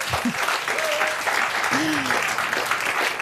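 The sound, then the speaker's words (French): Live audience applause at the Le Livre sur les quais book fair in Morges: dense, steady clapping for about three seconds, with a couple of brief vocal sounds rising above it. “On est en direct du livre sur les quais à Morges. Si, je vous assure, entendez le public.”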